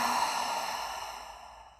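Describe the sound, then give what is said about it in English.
Long breathy exhale out through the mouth during a guided breathing exercise, a soft airy rush that fades steadily over about two seconds, alone without any voice. “Breathe in through the nose, out through the mouth.”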